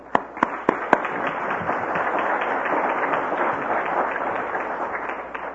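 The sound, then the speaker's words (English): Congregation in church applauding to welcome a speaker: a few sharp, separate claps at first, then sustained, even applause that carries on and eases slightly toward the end. “And let's welcome him with our hands.”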